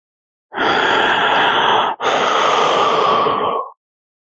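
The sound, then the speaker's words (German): A deep breath, heard as two long, loud, airy breath sounds of about one and a half seconds each, back to back with a brief gap and no talk. “Tiefer Atemzug.”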